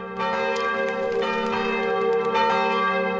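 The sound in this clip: A church bell rung by hauling on the bell ropes: loud, repeated metallic strikes with a rich sustained ring that carries through the gaps between blows.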